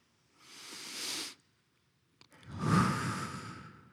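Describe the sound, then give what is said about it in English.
A person takes a slow, deep breath in through the nose and out through the mouth: first a soft airy inhale, a short pause, then a longer, fuller breathy exhale. No talking. “Let's take a deep breath in your nose and out your mouth.”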